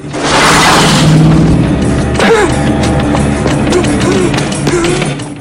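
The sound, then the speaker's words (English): A car crashing through graveyard gates: a loud rushing roar gives way to a sharp, heavy impact, followed by lower rumbling and scattered clanks as the noise settles. “He runs past tombstones and mausoleums. A car crashes through the gates.”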